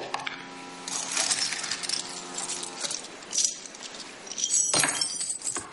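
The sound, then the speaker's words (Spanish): Bright metallic clinks and a light rattle of an antique silver piece-of-eight coin being handled, a few sharp chinks over a faint background. “¿Sabe qué es esto? No. Una de las famosas piezas de ocho, típica en las películas de piratas.”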